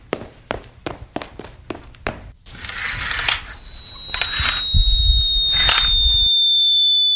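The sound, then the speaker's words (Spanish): Falling-bomb whistle sound effect: a thin, high tone that slowly drops in pitch over several seconds, laid over loud rushing noise after a quick run of sharp taps. “¡Tú, bomba! ¡No caigas aquí, huélete por donde has venido! ¡Fea, bomba, fea! Pero si la bomba sigue cayendo, lo de gritar por la ventana ha sido un fracaso.”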